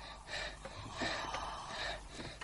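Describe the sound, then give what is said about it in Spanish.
Heavy human breathing: a few slow, loud, airy gasps in and out in an uneven rhythm, with no speech. “Deja de respirar así. Deja de respirar así.”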